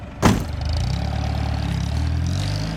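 A car engine revs as the car drives off: a steady, low mechanical drone that steps up slightly in pitch, with a short sharp knock near the start.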